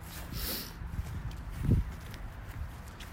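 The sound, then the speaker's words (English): Footsteps in shoes thud on a wooden floor, a few faint uneven steps with one heavier footfall in the middle. “Yeah, it's a weird angle that I can't walk at apparently. No, neither can I. No, these shoes are not made for wood.”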